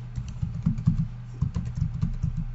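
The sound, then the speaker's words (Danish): Rapid typing of an email address and password on a computer keyboard: many quick, irregular keystrokes clattering alone in a steady stream, with one brief pause partway through. “Skriv din mailadresse og dit password.”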